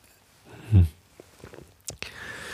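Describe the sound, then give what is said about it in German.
A quiet sip of a drink taken mid-talk, a single soft low gulp followed by a few faint mouth clicks in near silence. “So, einen Schluck getrunken, vielleicht geht meine Stimme dann gleich wieder besser.”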